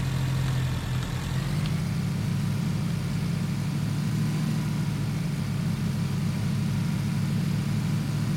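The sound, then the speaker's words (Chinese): Motorcycle engine in the video game PUBG: a loud, steady, low droning hum that holds an even pitch without distinct revs the whole time. “哎呦，我前面有个摩托，有个摩托”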